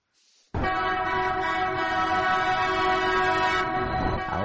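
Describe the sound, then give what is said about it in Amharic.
A train in Ethiopia sounds a loud, sustained horn blast that starts abruptly after a brief low rumble and holds a steady, rich tone to the end. “የቀደመው ተመልሷል። ባቡሩ ዳግም ወደ ኢትዮጵያ መጥቷል።”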